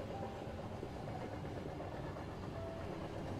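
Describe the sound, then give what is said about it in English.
Moving night train rolling along as a continuous, even low rumble with a broad wash of noise, steady throughout with no distinct clacks or whistle. “Now the train is in motion and has now become a night train for sleep.”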